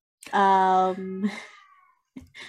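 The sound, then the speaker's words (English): A voice imitates a cat's meow with one long, drawn-out, nasal cry. It trails into softer vocal sounds, then a short pause and a brief final utterance. “as she sees the end and hears a cat”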